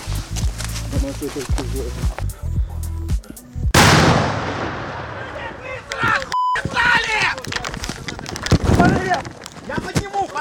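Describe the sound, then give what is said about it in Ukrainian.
A Russian tank firing: one heavy, loud blast that booms and slowly decays, with men talking before and after it. “Аж тут починає гатити російський танк.”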